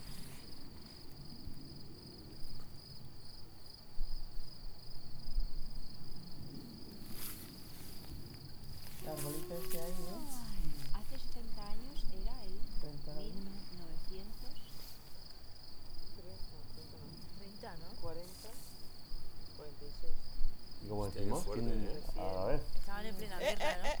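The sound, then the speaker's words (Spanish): Crickets chirp at night in a steady, continuous high trill, while people talk quietly over it throughout. “Están cantando más los grillos”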